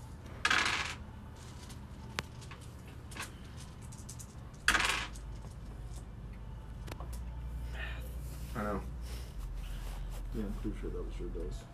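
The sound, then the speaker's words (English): Dice drop and roll on a table during a tabletop game: two sharp clattering bursts, one near the start and one midway, with a few lighter clicks between, heard alongside people talking. “I'm pretty sure that was your dice.”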